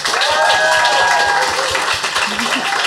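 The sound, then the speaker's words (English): An audience applauds to welcome a guest with steady, dense clapping that carries through, over a regular low thumping beat and sustained tonal sounds. “can everyone please give a hand and a very warm welcome to Colleen Cosmo Murphy.”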